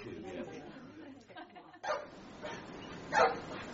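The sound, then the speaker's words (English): A badly behaved dog barks in a few short, yapping bursts that grow louder toward the end, under and between people talking. “I'm sorry about my dog. It's very badly behaved.”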